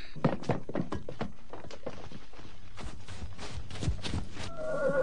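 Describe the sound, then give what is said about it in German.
A horse whinnies with a wavering, high-pitched neigh near the end, after many hoof clops and dull thumps. “Ja, da, mein Pferd.”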